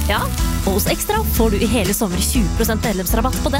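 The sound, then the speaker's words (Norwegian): A burger sizzles on a grill, a hissing frying noise heard under a voice that talks throughout. “Det er lyden av en grill. Perfekt big beefy burger.”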